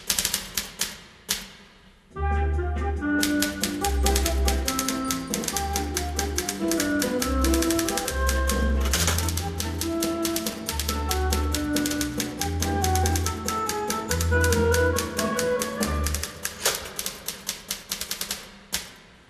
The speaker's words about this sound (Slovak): Vložím papier do stroja a napíšem ich znova.